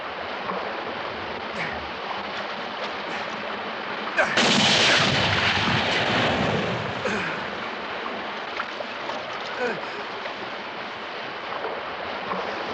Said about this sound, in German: Warum hast du nur auf die Hand geschossen?